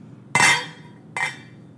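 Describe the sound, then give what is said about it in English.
Lid being taken off a container of reheated rice: two sharp clinking knocks less than a second apart, the first louder than the second, against a quiet background. “So I'll take the lid off. Except that was hot.”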